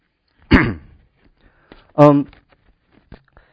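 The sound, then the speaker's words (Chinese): Two short, rough coughs from a speaker giving a Bible teaching, each a brief loud burst with a hoarse, throaty edge, separated by about a second and a half of near silence. “对不起啊，今天的咳嗽比较多。”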